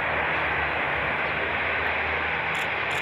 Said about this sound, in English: From the land, a French maritime patrol aircraft takes off to help in the hunt.